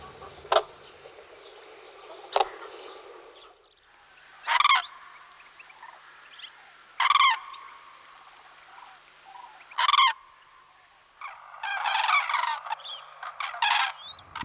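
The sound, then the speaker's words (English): Cranes calling: several loud, separate honking, trumpeting calls spaced a few seconds apart, then a denser burst of overlapping calls near the end, all over a steady background hiss. “we heard cranes right at the beginning of that piece. They seem to have a whole range of sounds. Here's some more of them.”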